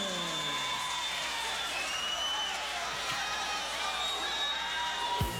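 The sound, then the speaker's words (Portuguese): An audience applauds and cheers as a guest is welcomed to the stage, a dense, steady wash of clapping and shouts that carries through to the end, with a brief thump just before it finishes. “Boa noite, galera! Bora aplaudir!”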